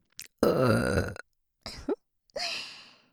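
A woman burping on request: one long, loud, drawn-out belch, then a shorter one and a final trailing belch, each separated by silence.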